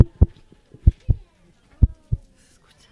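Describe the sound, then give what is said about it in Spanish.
A heartbeat of six dull, low thumps in a slow, uneven rhythm, some falling in loose pairs, with quiet gaps between them and no voices over the beats. “¿Escucháis los latidos? Sí, perfectamente.”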